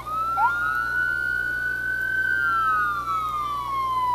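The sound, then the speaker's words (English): A fire tanker truck siren from the Castro County Fire Department wails as Tanker One passes. The tone sweeps upward, holds a long high note, then slowly falls, over a low steady engine hum. “Here's tanker one. Hey, we can actually hear. Tanker one is from the Castro County Fire Department.”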